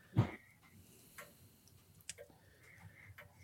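A clock ticks faintly with slow, steady ticks about a second apart against a quiet background, the first tick noticeably louder than the rest.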